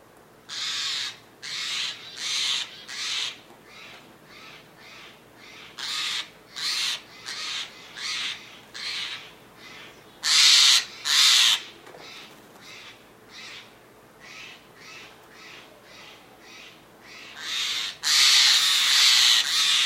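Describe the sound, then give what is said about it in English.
Steller's jays give harsh, raspy mobbing calls at a robotic goshawk. Many loud, repeated bursts come in an irregular rhythm, some louder and more strident than others, with no talk. “So you can sort of acoustically hear how powerful these mobbing calls are at bringing in the troops.”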